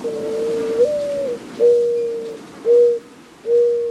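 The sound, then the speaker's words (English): A dove coos near oleanders on a dirt path in a hometown, giving a run of soft, low, mellow coo phrases. Each note holds a steady pitch, with brief pauses between phrases. “I heard the dove.”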